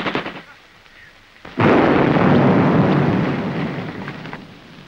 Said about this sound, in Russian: Бросает гранату. Еще одну. Еще одну.